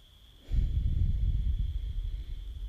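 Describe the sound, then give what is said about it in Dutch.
Deep breathing during a guided meditation: after a quiet start, a long, low, rushing breath of air swells and holds for about two seconds, gently fluctuating before easing slightly at the end. “Adem nog drie keer in en uit.”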